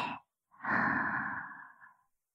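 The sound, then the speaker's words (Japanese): Slow meditation breathing: a short intake of breath, then a long, soft, sighing exhale that fades out, with nothing else around it. “両足を感じて、吸って、吐いて、”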